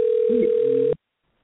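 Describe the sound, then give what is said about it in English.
A steady telephone tone comes through on a call-in line: one unbroken, even beep lasting about a second, then an abrupt cutoff into silence. “Who got a phone ringing on the line? Who is that?”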